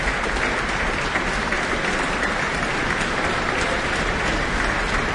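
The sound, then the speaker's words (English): Steady, dense applause from a concert audience after an orchestral performance with a flute soloist, loud and continuous throughout with no talk. “tonight's soloist, flutist Camila Hoitenga, is back on stage now, basking in the applause.”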